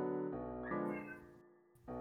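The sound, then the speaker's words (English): A cat meows in a drawn-out, crying way; it is the caravan kitty during a tabletop role-playing game. The mews are steady and tonal, in a few connected stretches, and no one talks over them. “the caravan kitty is crying.”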